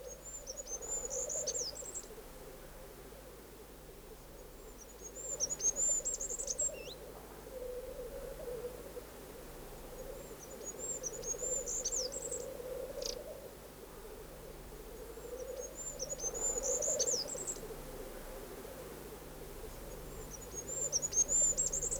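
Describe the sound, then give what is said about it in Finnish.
A goldcrest's rhythmic song picked up with a parabolic microphone: several short, very high, thin trilling phrases repeat at regular intervals over a faint, steady low background. “Nyt asennamme paraboliantenni niin, että paremmin kuulisimme hippiäisen rytmikkään laulu.”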